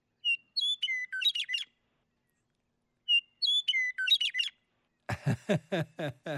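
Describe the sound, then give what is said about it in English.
Western meadowlark song: two fluty, whistled phrases that step downward into a quick bubbling warble, repeated after a pause, then a few harsher, rasping notes. “let's listen to Tyler's got a Western meadowlark. Let's listen.”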